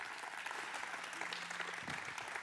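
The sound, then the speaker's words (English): Audience applause at a church gathering welcoming a guest speaker to the stage, a steady, dense wash of clapping that stays faint and even throughout. “So would you put your hands together and welcome him to the stage.”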